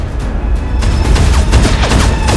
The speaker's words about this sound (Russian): На судне вспыхивает взрыв.